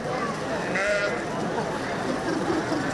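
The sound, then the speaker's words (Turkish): Sheep bleat as a flock is driven across the Büyük Menderes River, the calls rising out of a dense, steady wash of animal noise with indistinct voices mixed in. “Çobanlar tıpkı o çoban gibi koyunlarını Büyük Menderes Nehri'nden geçirmeye çalışır.”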